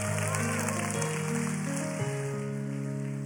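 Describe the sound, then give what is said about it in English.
A church audience applauds mothers coming on stage during a Mother's Day service. The clapping is a dense, steady patter laid over sustained musical tones that shift pitch partway through. “Guys, come on out. Guys, give it up for these moms.”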